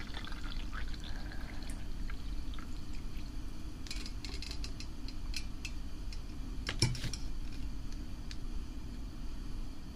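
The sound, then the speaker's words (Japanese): Boiled hot water is poured slowly in a faint, steady trickle, with a few light ticks and clinks scattered through it. “続いて沸かしておいたお湯をゆっくりと注ぎまして、”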